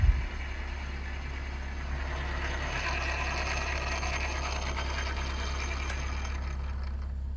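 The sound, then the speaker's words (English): A lathe slices a 2-foot cable sample into a thin helix layer about 25 thousandths of an inch thick. A steady mechanical whirring hum over a low drone follows a brief louder start, with no talk. “Right now I'm just cutting the cable, slicing it into a helix layer, and it'd be like 25 thousandths of an inch in thickness.”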